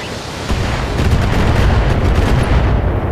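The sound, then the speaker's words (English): Turrets in a video game launching long-range missiles in indirect fire: a loud, dense, unbroken roar of overlapping blasts and booms that builds after the first half-second and holds steady. “Some of the turrets are using indirect LRM fire against us.”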